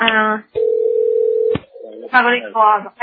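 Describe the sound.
Ringback tone of an outgoing telephone call: one steady, even-pitched tone lasting about a second. Voices speak before and after it.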